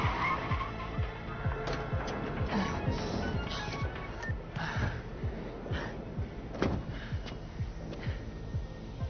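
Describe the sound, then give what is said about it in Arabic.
Car tires skid as a car brakes to a stop, a rough, continuous scraping with many rapid squeals over engine rumble, moderately loud and sustained throughout. “وقف السيارة.”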